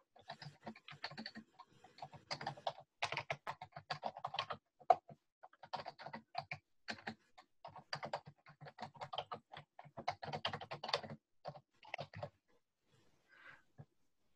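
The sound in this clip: Faint typing on a computer keyboard: rapid, irregular clicks come in bursts with short pauses. The last few seconds hold only a few isolated key presses.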